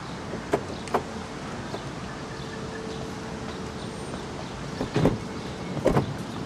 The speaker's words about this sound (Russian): Они подъехали на машине.